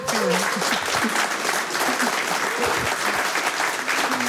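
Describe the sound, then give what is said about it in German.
Studio audience applause on a German radio show: dense, continuous clapping held at an even, full loudness for the whole stretch, with no pause or swell. “Also herzlichen Dank für diese wirklich warmen Worte und herzlichen Dank auch für diesen warmen Applaus.”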